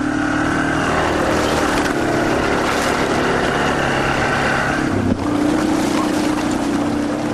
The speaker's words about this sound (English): More trails could lead to more ATV sales, Walter says, and more ATVs could lead to an increased demand for still more trails. And in the years ahead, that can make this sound more common.